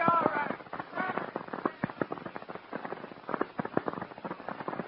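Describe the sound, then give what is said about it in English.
Gunshots from a man shooting up a street, firing as people scatter: many sharp, cracking reports in rapid, irregular succession, each short and snappy, continuing throughout. “There's a crazy guy in the street outside my store shooting up the place.”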